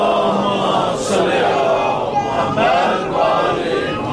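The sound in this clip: A crowd at a religious gathering chants salawat together, a loud swell of massed voices that rises and falls in a few surges with no pause.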